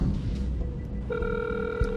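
A steady electronic telephone ring tone starts about halfway through while a number is being called, sounding over a low background hum.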